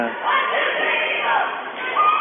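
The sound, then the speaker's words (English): A crowd at a women's basketball game cheers loudly in the final seconds, a sustained roar of many voices that swells and holds with small surges. “We have 43 seconds left in the game, and the crowd is really getting into the game now.”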